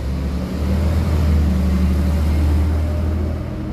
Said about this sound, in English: Those are the buses, by the way. They're so loud here.